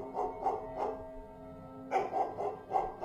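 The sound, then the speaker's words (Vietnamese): A fierce dog barks in quick bursts, three sharp barks, a short pause, then several more, moderately loud over a faint steady hum. “Con chó đột nhiên nhìn chăm chăm vào tôi rồi sủa lên inh ỏi.”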